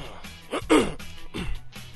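A person clears their throat after something caught in it, producing a few rough, harsh bursts of throaty noise with short pauses between them.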